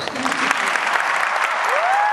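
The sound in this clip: A young audience gives Pope Francis a big ovation, with dense, sustained applause at an even loudness throughout and voices mixed into the clapping.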